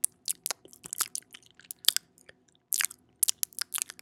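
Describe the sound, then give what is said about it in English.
ASMR mouth smacking: many wet, sticky clicks and smacks of lips and tongue, irregular and close, with short pauses between bursts and no talking. “Yeah, I would have tuned out right at that mouth smacking. That's kind of gross.”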